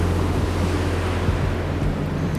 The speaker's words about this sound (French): je ne suis pas sur une patinoire pour changer, mais au bord de la mer.